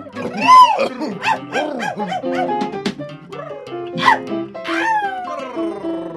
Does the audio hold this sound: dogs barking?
yes